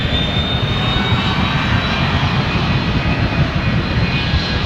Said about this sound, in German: wenn der Pilot die Starterlaubnis bekommen hat, geht's los. Dann gibt er Gas.